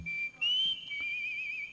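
A person whistles a short, clear, high tune: one sustained note, a brief break, then a slightly higher note and a long wavering tone that trails off. It is brief and fairly soft over a quiet background.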